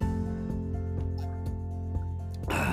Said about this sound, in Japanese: お水失礼します。